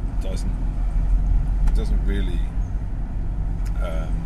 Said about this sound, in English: there's probably going to be more noise than usual, because I mean, I've got, my car is quite old and the aircon